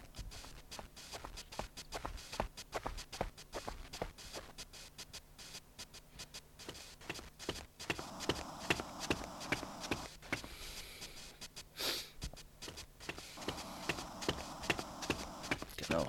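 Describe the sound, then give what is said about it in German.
Galloping horses carrying riders in a video game, heard as a fast, rhythmic clatter of many hoof strikes that continues throughout, with a denser, noisier layer building in over the second half. “Das scheinen irgendwelche Reiter zu sein.”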